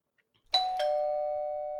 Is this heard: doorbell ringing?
yes